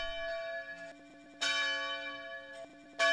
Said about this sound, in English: visitors would sometimes ask him, "What's that sound?" as the bell tolled.